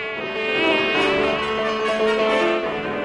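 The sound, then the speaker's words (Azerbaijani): A fly buzzes steadily and loudly throughout, a continuous droning hum with no pauses. “Milçək aslanın qulağından çıxıb indi də burnuna girdi.”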